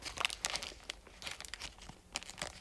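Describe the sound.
A plastic snack bag with a built-in seal is pressed shut. Faint, crackly crinkling comes in several quick bursts of rustles and small snaps, with brief lulls between.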